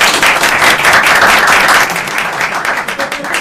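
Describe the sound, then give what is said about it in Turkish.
Loud applause from an audience: dense, steady clapping that continues throughout and eases slightly toward the end. “Alkış.”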